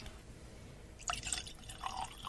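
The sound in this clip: Drops of water falling into a glass of whisky, heard as a few faint, small drips and light splashes close together, with no talking.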